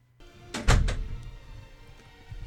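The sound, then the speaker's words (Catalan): A door opens in an office, a brief rattle building into one dull, heavy thunk, then a low tail that fades away quietly. “S'obre la porta i entra una senyora de certa edat.”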